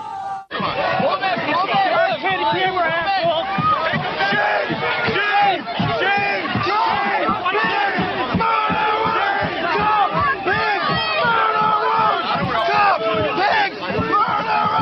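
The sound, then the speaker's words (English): Crowd of protesters shouting, many overlapping voices raised in loud, continuous rhythmic yelling that barely lets up. “Sounds of protest in Beijing and New York City decades apart.”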